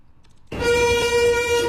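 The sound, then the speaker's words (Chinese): Horn of a 105-car, 1,400-metre freight train departing a railway station in Tangshan, Hebei: a steady, sustained tone that starts abruptly after a quiet opening and holds loud to the end. “由105辆挂车组成、总长达1400米的京津冀区域内首趟1吨级货运列车，缓缓地驶出了位于河北唐山的丰润西火车站”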